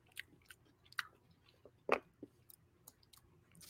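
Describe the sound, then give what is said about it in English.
Faint, crisp crunching comes from someone chewing green, matcha-flavoured Japanese Kit Kat wafers, with several irregular bites and chews separated by short quiet gaps. “But these are Japanese Kit Kats. They are green.”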